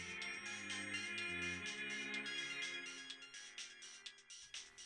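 A phone ringtone in an apartment plays a bright, repeating electronic melody with pulsing tones for the whole stretch, loud and unbroken, with no voices over it.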